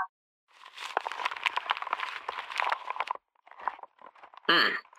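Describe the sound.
Old folded parchment paper being unfolded, giving a crisp, crackling rustle that runs for a few seconds, pauses, then returns in a shorter burst of crinkling.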